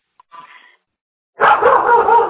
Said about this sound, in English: I apologize for my dog.